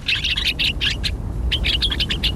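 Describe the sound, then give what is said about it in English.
Gray-crowned rosy finch calls: rapid, high, bright chirps in two quick runs separated by a short pause, over a soft low background hiss. “The gray-crowned rosy finch nests in rocky crags at higher altitudes than almost any other North American bird.”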